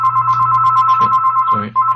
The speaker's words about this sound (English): And we have a phone call. Or the phone rings.